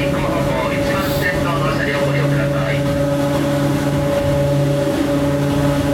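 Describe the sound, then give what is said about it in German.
A vehicle driving through a tunnel gives a loud, constant roaring rumble with steady droning engine tones throughout, and muffled voices sound faintly underneath. “Wir fahren übrigens gerade durch so einen Tunnel, von dem ich gerade erzählt habe.”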